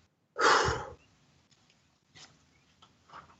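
A single loud, breathy release of a deep breath during a guided meditation, fading into near silence with only a few faint, soft breaths afterward.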